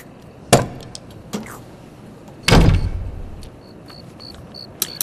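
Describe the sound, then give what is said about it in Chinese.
A door is shut: a sharp knock, then a louder, heavier thud with a low rumble that decays over about half a second, followed by a few faint ticks. “把门关上。”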